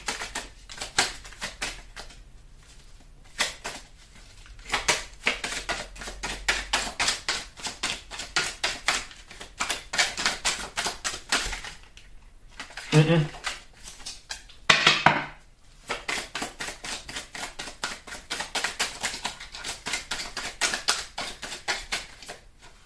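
Tarot cards being shuffled by hand: a dense, continuous patter of quick flicking and riffling clicks, fairly soft, broken by a few brief pauses, with no voices.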